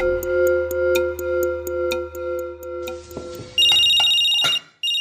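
A mobile phone rings with an incoming call. A pulsing electronic ringtone repeats in a steady rhythm, then shifts to a brighter, higher sustained tone that cuts off abruptly near the end.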